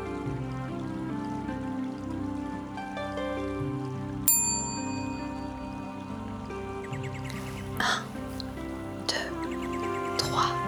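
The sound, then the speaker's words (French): A small bell chimes once at the end of a guided meditation, a bright struck tone whose high ringing partials linger and fade over a soft, sustained music bed. “À 3, après la clochette, tu ouvriras les yeux tout doucement.”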